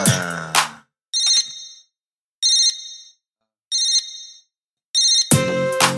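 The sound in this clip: A mobile phone ringtone from an incoming call plays in four short, bright bursts at an even rhythm. A voice speaks just before the first burst and just after the last.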